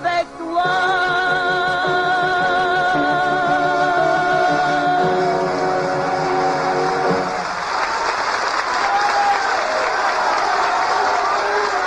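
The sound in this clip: Audience applause and an ovation at a concert by a celebrated French singer: the final held notes of the music ring out, then dense clapping swells and continues alone, loud and steady.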